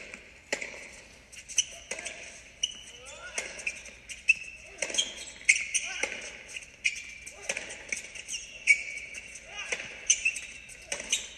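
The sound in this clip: A tennis rally between Alexander Bublik and Zverev: many sharp ball strikes and bounces crack out in an uneven rhythm, some close together and some spaced apart, over a quiet background.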